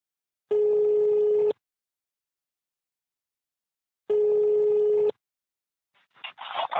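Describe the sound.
Ringback tone of an outgoing telephone call: two steady, identical ring tones about a second long, separated by a long silent gap. A voice then begins to answer at the end.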